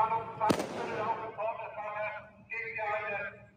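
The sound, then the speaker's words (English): A flashbang grenade going off in a street as people scatter: one sharp, loud blast near the start, then a wash of noisy background sound with people talking. “Flashbangs. Okay, there's people scattering.”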